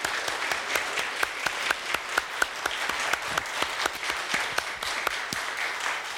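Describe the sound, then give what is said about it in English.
Audience applause welcoming a family of singers: many sharp, distinct claps in a steady, moderately loud patter throughout, with no talking. “Let's give them a great hand.”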